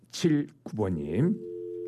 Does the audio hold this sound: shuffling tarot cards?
no